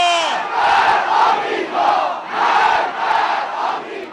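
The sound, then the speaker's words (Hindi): A large crowd chants anti-American slogans in the Iranian city of Ahvaz, with loud massed voices rising and falling in repeated rhythmic phrases. “ये अमरीका विरोधी नारे लग रहे हैं Iran के शहर अहवास में।”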